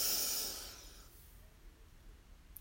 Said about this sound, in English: Just breathe in and move your body around. And out.